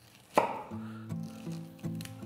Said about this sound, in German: So, und dann nehme ich jetzt den Fenchel, den halbiere ich eben. So, da schneide ich jetzt hier unten so ein bisschen den Strunk raus.